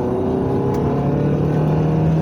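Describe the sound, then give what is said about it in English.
A Can-Am three-wheeled street vehicle is driving, its engine a continuous, loud, even drone with a low steady hum throughout and no talk. “This guy's driving a Can-Am. One of them five-wheel, what's that, four, three? Three-wheel sort of ATV, street vehicle thingies.”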